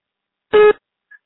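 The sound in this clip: Single voicemail beep: a loud, steady, slightly buzzy tone lasting about a quarter second, followed by a tiny faint blip, with silence around it.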